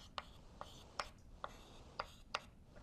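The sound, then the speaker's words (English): Writing on a board during a physics lecture: six sharp, crisp taps and scratches in an irregular rhythm, each brief and distinct against quiet background. “I'll just write 2.”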